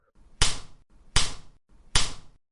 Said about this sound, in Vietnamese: Tiếng bạt tai rõ ràng vang dội, khiến ai nghe được đều hãi hùng khiếp vía.